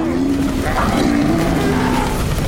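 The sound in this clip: Deep, drawn-out bellows from a stampeding herd of huge dinosaurs, loud and continuous with a wavering tone over a dense, rumbling background.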